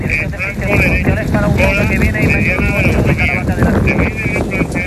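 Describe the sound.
Strong wind roars during a wildfire in dry terrain, a loud, steady, gusting rush that covers the whole stretch, with a voice heard beneath it.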